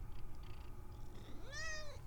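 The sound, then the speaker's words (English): A house cat meows, wanting to go outside or have a door opened so it can look out the window. One clear, high-pitched meow near the end rises and then falls, over a quiet background with faint earlier rustles. “So, obviously my cat wants to go outside, or at least wants me to open the door so she can look out the window.”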